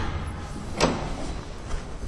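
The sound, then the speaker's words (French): An elevator arriving with people: a steady, broad hiss with one brief swishing slide, like doors opening, near the middle, after which the even noise carries on. “Arrivée d'ascenseur avec du monde.”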